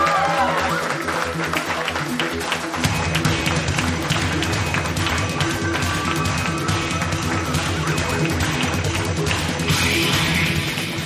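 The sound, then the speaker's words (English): An audience claps and cheers as a comedian is welcomed onto the stage at a comedy show. The dense applause holds steady for the whole stretch. “Please put your hands together. Welcome to the stylish, the one and only Mr. Jean Paul. Ladies and gentlemen, come on up.”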